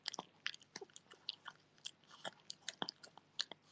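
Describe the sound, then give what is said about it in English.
A dog with only three teeth munches its food: many crisp, irregular crunching bites and chewing clicks in quick succession, fairly faint and with no other sound. “Can you hear him?He's munching.”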